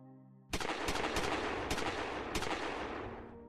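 A firing squad's rifle volley at an execution erupts suddenly as a loud burst of several sharp cracks that merge into a rumbling roar and slowly fade; a soft tonal sound precedes it.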